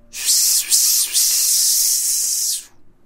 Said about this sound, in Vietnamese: trên thân thể của nó lập tức phát ra tiếng xèo xèo